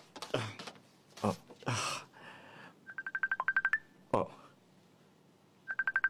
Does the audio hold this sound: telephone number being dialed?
yes